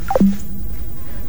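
Telephone tone after a call is cut off: a quick run of beeps stepping down in pitch, ending in a held low tone that fades, then a quiet hum.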